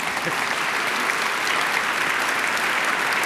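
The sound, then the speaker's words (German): Audience applause at a music performance event: dense, continuous clapping that holds at an even, fairly loud level from start to finish. “Sie dürfen gerne applaudieren.”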